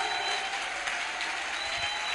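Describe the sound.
A church audience claps during a sermon, producing a thick, continuous wash of applause that stays loud and even throughout.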